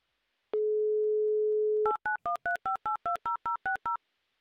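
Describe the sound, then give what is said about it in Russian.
Placing a telephone call to Krasnoyarsk: a steady dial tone holds for over a second, then a quick, even run of about ten bright keypad beeps in alternating two-note pairs, clear and alone. “Да, давайте звонить в Красноярск.”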